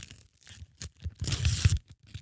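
A pack of football trading cards is torn open. A few short crinkling rips lead into a longer, louder stretch of tearing and crumpling, then taper into small crackles.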